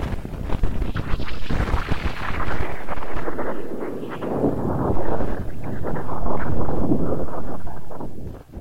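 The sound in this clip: Audified wind data holding an unexplained feature: a dense, low, rumbling roar that runs without a break, swelling and easing slightly in loudness throughout.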